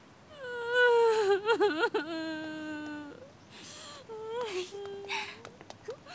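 A boy cries in a wavering, high-pitched wail with trembling pitch, loud at first, then breaking into quieter, halting sobs and breathy gasps.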